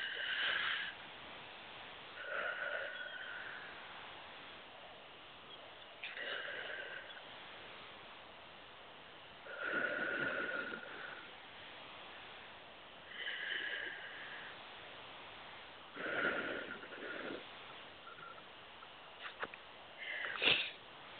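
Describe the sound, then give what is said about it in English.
Slow deep breaths taken during a guided relaxation session, a series of faint, airy inhales and exhales spaced a few seconds apart, with nothing else around them. “And take three nice deep, deep breaths.”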